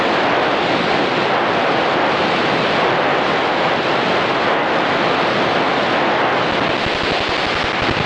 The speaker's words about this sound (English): We'll start at 740, so you'll hear the IBOC hash.